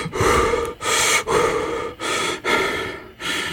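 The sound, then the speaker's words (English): A man breathes heavily to calm himself down. There are six loud, breathy breaths in a steady, even rhythm, with short pauses between them. “as he kind of like breathes it out and tries to calm himself down”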